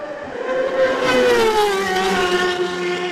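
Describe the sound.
Racing motorcycle at the Isle of Man TT roaring past at speed, a loud, high engine whine that swells, then slides down in pitch as it goes by.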